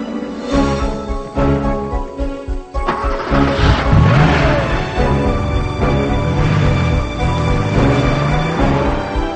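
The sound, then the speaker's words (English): A Porsche's engine starts and revs as the car drives away, a loud roar that swells and wavers with a few rising and falling surges. “He gets back into the Porsche.”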